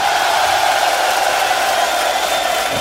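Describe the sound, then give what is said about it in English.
A concert crowd in Cyprus cheering in a dense, sustained roar that stays loud and even throughout. “Let me hear you, Cyprus!”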